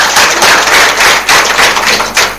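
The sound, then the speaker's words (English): Loud applause for a correct answer in a school quiz round: uneven, crackling clapping from a group that swells in a few sharp bursts, then dips and rises again. “Yes. A round of applause for her. That's the correct answer.”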